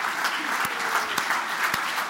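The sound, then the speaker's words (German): Applause and a standing ovation for two Federal Council candidates at a Social Democrats' party congress in the Grand Casino in Lucerne. The clapping is steady and fairly soft, with a few sharper claps standing out. “Applaus und eine Standing Ovation ernten die beiden Bundesratskandidaten.”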